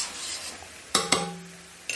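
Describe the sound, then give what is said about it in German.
A metal spoon stirs caraway into boiling broth in a pot for a soup. It gives three bright, ringing clinks against the pot, two close together and one later, over a soft hissing bubble. “Da geben wir jetzt gleich den Kümmel rein. Hopp, hopp. Rühren wir mal kurz um.”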